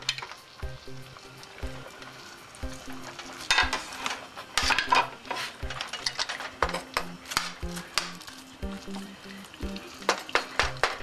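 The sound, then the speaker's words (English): Sauce bubbling in a cooking pot as meat is put back in, a crackling sizzle under many irregular clicks, clinks and scrapes that grow busier toward the end. “And now you see that the sauce is starting to boil. And place all the meat back.”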